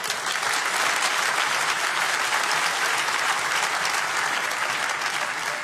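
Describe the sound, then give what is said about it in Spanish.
Applause from a church audience, a dense, even wash of clapping that holds at a steady level from start to finish with no pauses. “Dale un aplauso a Jesús.”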